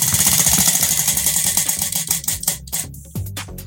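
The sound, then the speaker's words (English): A prize wheel spinning, its pointer ticking rapidly against the pegs, then slowing to a few widely spaced clicks before it stops. “spin you the wheel again do, do uh, ah, I'll give it a bit of oomph just yeah yeah go go go”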